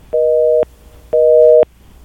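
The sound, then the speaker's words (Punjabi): Telephone busy tone after a caller's line disconnected: two loud, steady, two-pitch beeps of equal length, separated by an equally long silence. “I think ਤੁਹਾਡੀ ਜਿਹੜੀ line ਹੈ ਜੀ ਉਹ disconnect ਹੋ ਗਈ ਹੈ”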